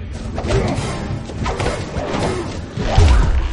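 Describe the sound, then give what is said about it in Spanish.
Heavy punches and thuds from a hand-to-hand fight between a man and a woman in a 2016 zombie horror film. The blows land as a rough, irregular series of dull impacts over a rumbling bed, with the loudest hit near the end. “Él se defiende y se dan golpes.”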